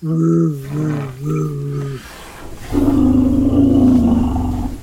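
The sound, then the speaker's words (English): An elephant's complaining grumble rumble: two wavering, low harmonic calls, then a louder, rough roar-like rumble that holds to the end. “So I can hear when an elephant is complaining about something, and I call it a grumble rumble.”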